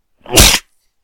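A single sharp human sneeze, a loud, breathy burst of about half a second, heard alone with silence around it.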